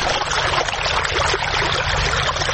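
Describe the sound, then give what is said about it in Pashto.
Farmers in Sayedabad district, Maidan Wardak province, pump water up from deep wells with solar-powered machines. It pours out as a loud, continuous gushing and splashing rush that never pauses. “دا د میدان وردګو ولایت په سید آباد ولسوالۍ کې د ژورو څاګانو اوبه دي چې بزګران یې د لمریزې هندارو او ماشینونو په مرسته راپورته کوي.”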